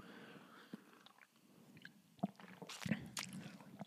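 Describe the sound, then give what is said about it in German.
A person takes a quick drink, with faint sipping and swallowing sounds and a few soft wet clicks and gulps. The sounds are quiet and irregular, with a brief louder burst near the end. “Kurz was trinken.”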